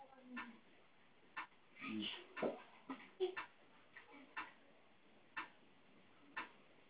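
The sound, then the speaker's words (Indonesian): A metronome set to one beat per second ticks faintly with many short, dry clicks in a steady pulse. “Ini metronom, perhitungan 1 detik 1 ketukan.”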